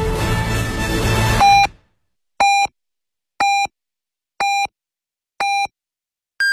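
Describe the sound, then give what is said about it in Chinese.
Hourly time signal on a Beijing radio station in 2018, marking eleven o'clock Beijing time. Music ends, then short electronic pips sound once per second, four at one pitch, followed by a higher-pitched final tone. “现在是北京时间11点整。”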